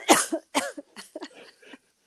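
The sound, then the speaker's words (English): A coughing fit: a rapid string of harsh coughs, the first few loud and forceful, the later ones weaker and more ragged as the fit trails off, with no talk. “Total coughing fit. We can cut that out.”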